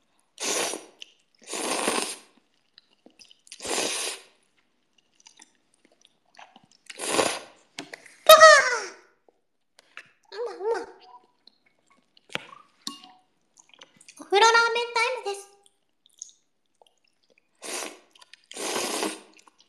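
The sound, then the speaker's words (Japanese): Ramen noodles being slurped in a bath with echo: many short, wet slurping bursts, some with squeaky, rising tones, broken up by quiet pauses. “ラーメンをすすります。”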